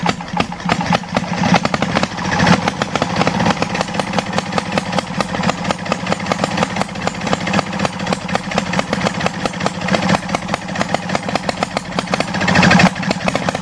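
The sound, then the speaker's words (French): A petrol engine fuelled with Super 95 runs loudly after starting, a rapid, steady chugging pulse that keeps an even rhythm throughout, with slight swells near the start and the end. “Donc ça a démarré. Ça y est. Donc le réacteur est bien en marche.”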